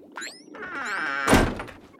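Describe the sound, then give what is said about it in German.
A door in a cartoon is shoved open with a brief creaking sweep, then a loud, heavy thump as it hits, fading out afterward. “Wieder wird eine Tür aufgestoßen.”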